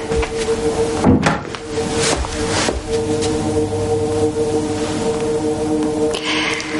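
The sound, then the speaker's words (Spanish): A door being closed in a drama scene: a few dull knocks and a short clatter stand out over a steady, humming tonal background, with no one talking. “Cerrad la puerta.”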